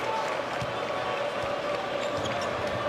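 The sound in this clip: A basketball being dribbled during a college game between Wisconsin and Maryland, with a few dull, low thumps of the bounce under steady crowd noise and a commentator talking.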